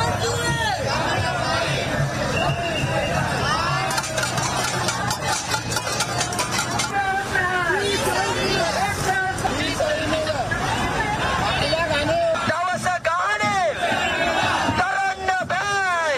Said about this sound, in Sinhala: ආණ්ඩුවේ බදු ප්‍රතිපත්තියට සහ ජීවන වියදම ඉහළ යාමට එරෙහිව ජන අරගල ව්‍යාපාරය සංවිධාන කළ විරෝධතා පාගමන බොරැල්ල කැම්බල්පිටිය අසලින් අද පස්වරුවේ ආරම්භ වුණා.